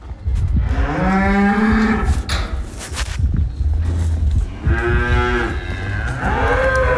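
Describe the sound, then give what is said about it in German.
Cows mooing in a barn as they are brought in from pasture: several loud, long, low moos with a rough, harmonic tone, separated by stretches of quieter shuffling noise. “Das heisst, die Aufnahme war eigentlich, ich bin gerade Kühe von der Weide reinholen.”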